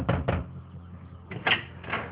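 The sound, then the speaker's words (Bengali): A door being opened: a few short wooden clunks and rattles that come in quick pairs, with quieter gaps between them. “আরে দরজাটা খুলো।”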